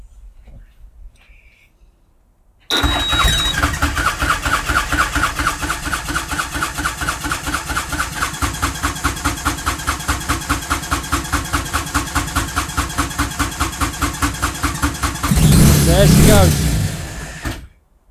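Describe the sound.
A tuk-tuk engine bursts into life after being hotwired by joining its two main feed wires and a starter signal wire. It then settles into a loud, steady chugging idle with even pulses, and grows louder and rougher near the end.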